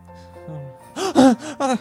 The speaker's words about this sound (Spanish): pero no bien se acaba de tumbar, despertó agitado y jadeante.